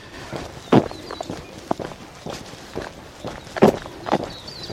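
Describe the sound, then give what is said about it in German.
Footsteps walking along a narrow tarred road between villages, a series of soft crunching steps in an uneven rhythm with a few louder footfalls standing out. “Wir laufen hier auf so einem, naja, bei uns in Deutschland wäre das ein Feldweg.”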